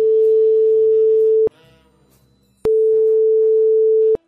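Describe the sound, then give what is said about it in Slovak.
Telephone ringback tone after dialing a call: two long, steady tones of the same pitch separated by a quieter pause, each starting and ending with a sharp click. “Mám vytočené. Ano. Voláme?”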